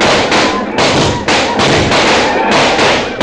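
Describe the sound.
Rapid gunfire volley from a frontier skirmish against attacking Apaches: loud, harsh bursts of shots follow one another in a near-continuous overlapping barrage, with a few brief dips between clusters.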